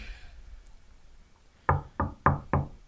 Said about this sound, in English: Knock on fucking wood